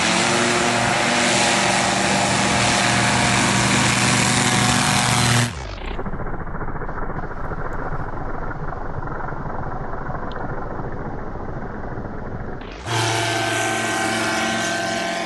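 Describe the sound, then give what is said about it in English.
A light aircraft engine roars through a short takeoff roll, a loud, buzzing drone that shifts abruptly to a duller, lower rumble for several seconds, then returns to the bright, full roar. “Short takeoff's also a feature. Obviously, it's a light aircraft too. Let's have a look at this takeoff roll.”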